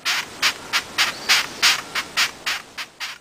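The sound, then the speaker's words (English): Raspy stridulating chirps from a long-horned beetle repeat in a regular rhythm, roughly ten harsh, scratchy squeaks of even loudness, with no other sound around them. “That sound was... A long-horned beetle.”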